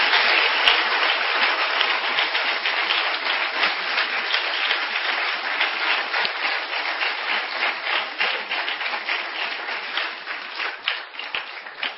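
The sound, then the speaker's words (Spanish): Dense, steady audience applause at a church service during a religious testimony, with many hands clapping continuously at a fairly even loudness for about twelve seconds. “¿Cuánto le dan aplausos al Señor?”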